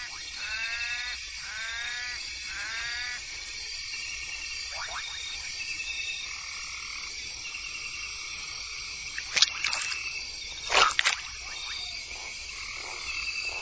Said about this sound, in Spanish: La rana verde de ojos rojos.